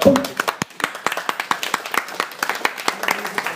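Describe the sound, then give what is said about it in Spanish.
Scattered clapping from a small audience at a comics fan talk: many sharp, distinct hand claps in an uneven rhythm, fairly loud and without a continuous roar. “me gustaría que nosotros ustedes le demos un aplauso a esta gente por su paciencia”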